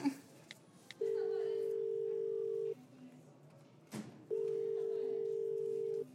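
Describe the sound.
Ringback tone of an outgoing telephone call placed by a doctor from a delivery room: two long, steady, mid-pitched tones separated by a pause, over faint background noise.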